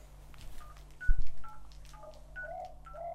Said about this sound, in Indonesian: Oh, sebentar ya, saya ada SMS.